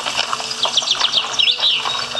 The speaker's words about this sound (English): A lot of birds, though. The nature preserve. The bird sanctuary. A lot of birds in the forest.